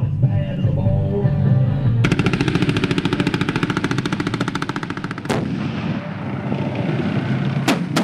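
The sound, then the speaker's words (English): Heavy gunfire from a Bradley fighting vehicle and an M1 Abrams tank firing on a dummy tank at an artillery range: a long, rapid burst of repeated loud shots lasting a few seconds, followed by two sharp, separate blasts over a low rumble. “a Bradley fighting vehicle and an M1 Abrams tank took turns annihilating a dummy tank”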